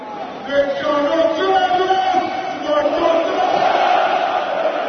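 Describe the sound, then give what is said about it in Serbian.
Crowd at the packed Rajko Mitić stadium in Belgrade during a Red Star league title celebration, with loud, sustained massed voices chanting and singing together at a steady level. “Da čujemo deo atmosfere sa prepunog stadiona Rajko Mitić.”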